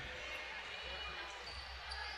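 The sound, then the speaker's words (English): A basketball is dribbled on the court during a game, giving a steady run of dull, low thuds at an even bouncing rhythm over a constant background wash. “Barnes dribbles towards the elbow.”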